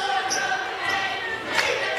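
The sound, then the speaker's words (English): A basketball is dribbled during a game. A few soft bounces sit beneath steady crowd noise and voices. “dribbling right to left”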